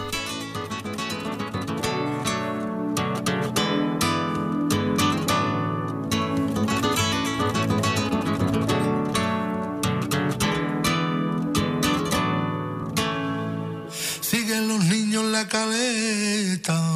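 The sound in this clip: A flamenco bulerías song plays as dense, steady music at an even level throughout, with a brief change in texture near the end.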